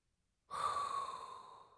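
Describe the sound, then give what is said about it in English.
A single long inhaled breath, airy and steady, begins after a short silence and tapers slightly toward the end; it is quiet and heard alone. “inhale a hot breath”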